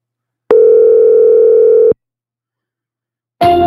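A telephone call tone, one steady, loud electronic hum holding for about a second and a half, then silence, then another tonal burst starting right at the end.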